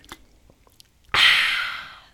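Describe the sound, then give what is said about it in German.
A drink is sipped after a toast. A few faint soft clicks come first, then a loud airy slurp that lasts about a second and fades. “Erstmal ein äh, Schluck auf euch. Prosit.”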